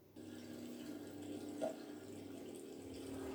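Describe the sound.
Hands being washed under running water in a scene from the film The Machinist: a quiet, steady flow from a tap that starts abruptly and continues evenly over a faint low hum.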